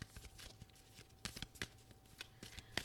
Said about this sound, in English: so I'm going to put it back. Keep shuffling.